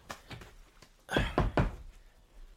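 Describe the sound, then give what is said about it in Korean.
Knocking on a door: a few soft, quick raps followed by three louder, heavier knocks in a short burst, heard on their own. “똑똑”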